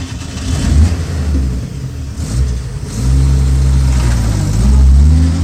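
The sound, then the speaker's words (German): A car engine revs as the car drives off. After a few uneven throttle bursts, the engine settles into a loud, steady pull that climbs in pitch, with no talk over it. “Diane fährt Sunny nach Hause.”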